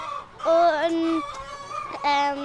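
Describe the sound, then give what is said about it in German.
Hens on an egg-laying farm calling while one is held and stroked, drawn-out tonal squawking calls in two bursts with a short lull between them. “Leni streichelt ein Huhn, das Annemarie Noda auf dem Arm hält. 260 Eier legen die Hennen hier.”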